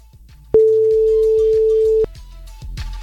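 A telephone ringing tone on the line: one loud, steady, single-pitched tone of about one and a half seconds that starts and stops abruptly, with faint background sounds before and after.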